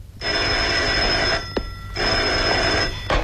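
A telephone bell rings in two long, loud electric bursts separated by a short pause, with a sharp click between them.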